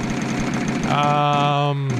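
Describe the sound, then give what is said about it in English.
Prize wheel spinning with a rapid, even mechanical clicking, joined in the second half by a sustained steady tone. “Well, let's spin the wheel of treats and see what you're really gonna get.”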